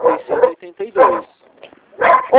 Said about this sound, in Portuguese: Eu escutei, tem um cachorro ali latindo